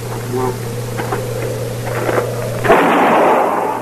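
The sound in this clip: A gunshot in a radio drama: a single loud, broad bang that cuts off a steady low hum and leaves a noisy ringing tail.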